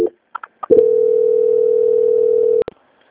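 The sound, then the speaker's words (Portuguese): Steady telephone line tone while a phone call is transferred, holding an even mid pitch for about two seconds. A few short clicks come before it, and another click cuts it off. “peço que aguarde na linha que eu vou transferir o contato para o controle de qualidade”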